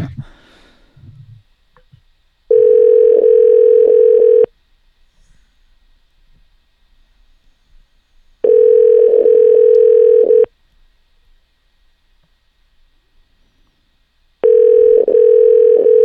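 Telephone line tone before a prank call about pizza: three steady, identical tones of about two seconds each, separated by long silent gaps, with no voices.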